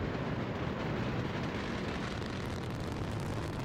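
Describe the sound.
A Delta IV Heavy rocket carrying the Parker Solar Probe roars at launch, its three RS-68 engines at full thrust. The dense, crackling rumble stays continuous and steady the whole time.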